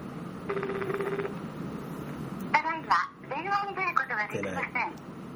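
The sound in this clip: A single ringback tone on an outgoing phone call, a steady buzzing purr lasting just under a second, followed after a pause by a voice speaking.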